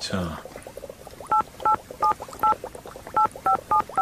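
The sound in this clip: A mobile phone being dialed: eight short, evenly spaced touch-tone beeps sound in quick succession, with talk going on underneath.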